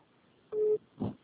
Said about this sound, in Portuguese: Tem outra pessoa me ligando